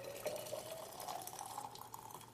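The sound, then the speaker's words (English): Hot water poured into a bottle makes a quiet, steady trickling fill with a faint ringing tone running through it. “fill this bottle with hot water. See if it stays the hottest.”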